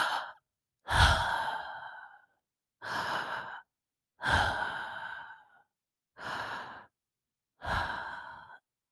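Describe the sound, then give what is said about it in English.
Three deep breaths are taken as a relaxation exercise with eyes closed: each long inhale is followed by a slow, sighing exhale, giving six evenly spaced breathy surges separated by silence. “So what I do is I'll take three deep breaths and I'll go,”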